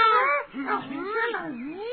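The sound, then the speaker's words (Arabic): A human voice imitates a cat meowing in a children's story, giving several drawn-out, wavering mews that rise and fall in pitch, with no other sounds. “مياو مياو، كيف حالك يا أخي العزيز قطقوط؟ مياو مياو”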